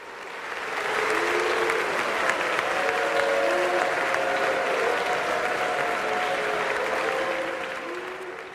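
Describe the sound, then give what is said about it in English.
An audience boos at a Parisian piano competition as the winning contestants are announced. Low, wavering vocal tones from many people overlap in a sustained crowd roar with clapping-like noise beneath, swelling in and easing off. “That was the sound of booing as the winning contestants of a Parisian piano competition were announced.”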